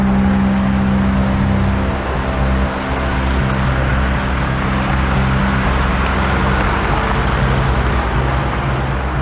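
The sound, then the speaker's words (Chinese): A car driving off, with a steady low engine and road rumble that holds at an even level throughout, without any clear change in pitch. “师傅，开车。”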